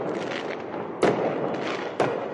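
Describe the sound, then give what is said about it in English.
Fireworks set off by a crowd of protesters in a street in Columbus, Ohio: two sharp bangs about a second apart cut through a constant, dense, noisy rumble. “Some in the crowd last night set off fireworks.”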